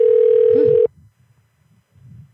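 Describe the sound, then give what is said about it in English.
A steady telephone tone from a phone holds one loud, unwavering pitch for just under a second, then cuts off abruptly, leaving only a faint low murmur. “What was that echo thing? I think that's their phone.”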